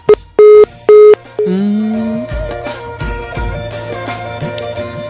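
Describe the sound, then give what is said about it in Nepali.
A telephone tone after a call disconnects: one short beep, then two longer, loud beeps. A dense, continuous mix of tones and noise follows and lasts to the end. “बोल्दा बोल्दै उहाँको phone नै disconnect भयो।”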